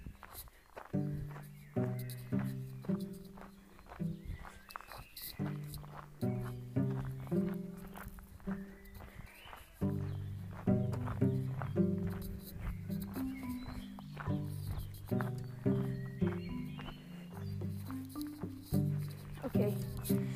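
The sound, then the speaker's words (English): Footsteps walking outdoors, a steady run of distinct steps that continues throughout, with a loud tonal sound layered underneath. “We just have to walk 2 minutes for nothing, so I hope you enjoy these 2 minutes ASMR walking sounds.”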